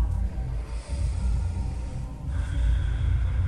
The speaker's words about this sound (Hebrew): תבדקו שהנחיריים יכולות להכניס אוויר, שאיפה. להוציא אוויר נשיפה.